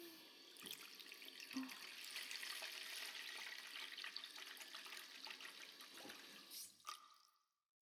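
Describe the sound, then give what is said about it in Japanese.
Hot water poured into lotion as it is mixed in a bath, a steady, fairly faint trickling splash that runs almost unbroken for several seconds, with a few brief spattering accents, before stopping near the end. “ローション作っちゃうから。ローションにお湯を足して、”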